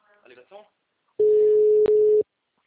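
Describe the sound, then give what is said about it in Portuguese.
Busy tone after a dropped phone call: a steady, loud mid-pitched beep of about one second, with a tiny break near its end, following a few short bursts of talk. “Ui, caiu a ligação.”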